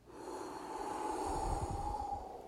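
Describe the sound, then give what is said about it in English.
A deep breath drawn in and then let out, a soft, airy rush that swells gently and stays faint, with a steady low hum beneath and no speech. “we'll just do a clean breath, like. And then exhale.”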